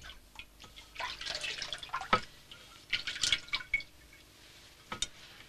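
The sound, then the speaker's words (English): Water splashing from a porcelain bowl in a bathroom as a woman splashes her face, heard as soft, irregular bursts of splashing and dripping with one sharper splash partway through. “Now Laura splashes her face with water from a porcelain bowl in a bathroom.”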